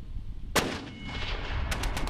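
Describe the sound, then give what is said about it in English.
Gunfire at an army live-fire training with M2 and 240 machine guns and mortars: one heavy, sharp blast, followed later by a quick cluster of a few crisp shots over a continuous rumbling background. “The dismounted soldiers moving while the mounted soldiers are firing, while the mortars are doing their thing.”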